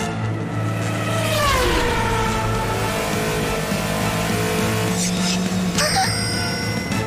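A race car engine roars off the line after a quick tire burnout, a loud sustained drone whose harmonics slide down in pitch during the first couple of seconds and then hold a steady, throbbing tone to the end.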